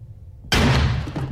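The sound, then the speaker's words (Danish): A gunshot from a film scene, a man shooting himself offscreen: one abrupt, loud blast breaks through a low murmur. It is followed by a sustained, rumbling wash that slowly fades. “Der skyder ham der sig selv offscreen.”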